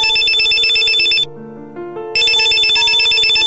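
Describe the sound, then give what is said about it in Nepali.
A telephone ringing: a loud, rapid electronic warbling ringtone that breaks briefly for a softer, lower run of melodic tones, then resumes at full strength. “पहिलो दिन उसले phone गरेकी थिए, दोस्रो दिन फेरि करणले phone गर्यो।”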